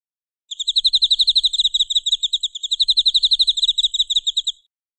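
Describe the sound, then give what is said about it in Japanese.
Autumn insects chirp in rapid, high-pitched pulsed trills, two long bursts of steady, evenly spaced notes with a brief gap between them and no voices. “最初の見本の秋の虫の鳴き声と同じ鳴き声は何番かな？”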